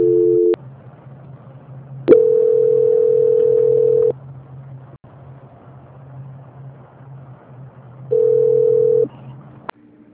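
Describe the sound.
Telephone line tones play while a call is transferred: three steady electronic beeps of differing length, separated by quiet gaps with a low hum and a few sharp clicks.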